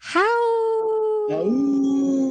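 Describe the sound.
Wolf howl: a long, smooth, loud tonal howl that rises and then holds steady, joined by a second, lower howl that climbs and sustains.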